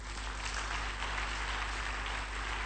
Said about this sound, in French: On a fini ce matin, on peut acclamer Dieu pour sa parole.